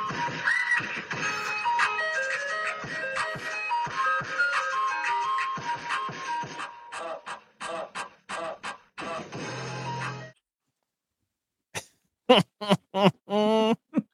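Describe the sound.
An electronic music beat plays as an intro, with a bright synth melody over clipped rhythmic hits that thin into short stabs, drop out into a brief silence, then return as a few punchy bursts.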